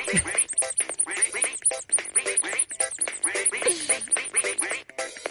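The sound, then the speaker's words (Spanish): Quacking from a rubber duck toy in a studio, a rapid run of many squeaky, nasal quacks packed closely together and continuing without pause, with no talk over them. “El que está cantando es el patito que de goma que tenemos aquí en el estudio, nuestra mascotita.”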